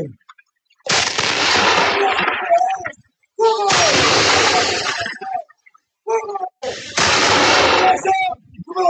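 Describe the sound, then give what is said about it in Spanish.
An artillery battery fires a ceremonial salute in honour of the President of Colombia: three loud booming blasts, each followed by a long rumbling decay. Brief shouted voices come between them. “En honor al excelentísimo señor presidente de la República de Colombia, doctor Abelardo Gabriel de la Espriella Otero. ¡Batería, fuego!”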